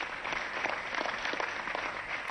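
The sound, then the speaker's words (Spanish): Audience applause at a political campaign rally, honoring a late football figure: dense, steady clapping from many hands fills the whole stretch at an even loudness, with no voices standing out. “Johan Cruyff, per favor, un aplaudiment.”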